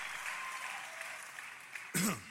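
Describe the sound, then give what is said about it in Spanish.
An audience applauds at a church service in Santiago Atitlán with steady, even clapping at moderate volume, followed by a brief louder burst as a voice comes in at the very end. “Qué bueno que aplaudió”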